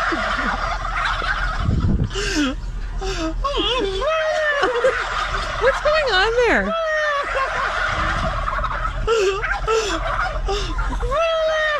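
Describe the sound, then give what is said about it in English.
Turkeys gobbling back at a man who gobbles at them: many rapid, warbling gobbles with wavering pitch overlap one another, and a voice imitating the calls can be heard among them, with some talk over the top. “What is that? It must be, it's audio, it's in our system, and it's labeled Turkey's Gobble. Sounds it's like... It's from a video called Man Gobbles at Turkeys”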